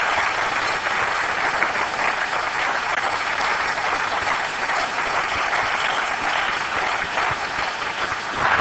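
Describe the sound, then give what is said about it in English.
Audience applause for a professor at the close of a lecture at the Perimeter Institute: a dense, steady roar of clapping, loud and even throughout with no talk over it. “I would like to give a very, very special warm round of applause to Professor Reagan”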